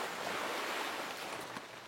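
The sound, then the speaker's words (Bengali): Sea waves make a soft, continuous wash of surf, steady and fairly faint throughout, with no voices. “আমি সমুদ্রের শব্দ শুনতে পাচ্ছি”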